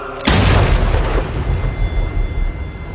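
A grenade explosion in a combat scene near a jeep of soldiers on an airstrip: one sudden loud blast followed by a sustained, rough low rumble that stays heavy for about three seconds.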